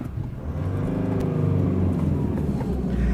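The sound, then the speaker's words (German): An automatic car's engine hums and rumbles as the vehicle drives off. It makes a loud, steady, low drone throughout. “Wow, wir fahren.”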